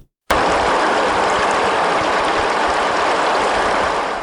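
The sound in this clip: Water rushes from the turbine pipes and spillways of a hydroelectric dam whose water level has dropped, a dense, loud roar that starts abruptly after a brief silence and holds steady, easing slightly at the end.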